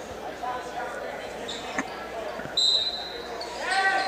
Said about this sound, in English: Inbound play here for the Winona Wildcats, bounce pass.